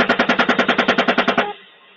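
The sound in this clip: Automatic gunfire from a military helicopter's gun, a fast, evenly spaced burst of many loud rounds lasting about a second and a half, then trailing off into a fading ringing tail, with no voices over it.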